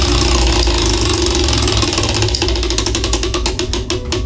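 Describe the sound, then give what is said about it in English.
A prize wheel spun during a gift card giveaway makes many quick, crisp ticks over a steady low rumble, growing clearer in the second half. “What do you say we spin this wheel and see who is winning the $50 Bro Bridge gift card today?”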